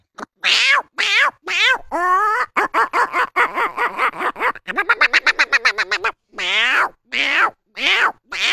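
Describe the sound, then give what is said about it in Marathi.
A voice imitates the call of the greater racket-tailed drongo (bhringraj bird). It gives many loud, varied whistled and mewing calls, with a quick run of rapid repeated notes in the middle. “जंगलात जाताने एक भिंगराज पंक्षी म्हणून कसं काय आवाज देत, त्या भिंगराज पंक्षीचा आवाज देतो.”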